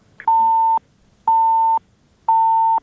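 A busy signal sounds on a phone call that fails to connect. Three steady mid-pitched beeps, each about half a second long, are evenly spaced with silent gaps between them.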